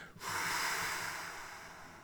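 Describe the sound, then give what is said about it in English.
A long, full exhale taken during a guided breathing exercise: a steady, breathy rush that swells quickly and holds for about two seconds, easing off slightly toward the end, with no talking. “We're going to do this three times. Just let all the breath go.”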